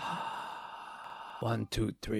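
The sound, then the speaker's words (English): A person demonstrates a deep-breathing exercise: a long, soft, airy breath drawn out for over a second, followed by a few short, louder breathy bursts. “He used to inhale and then exhale while counting. So like this.”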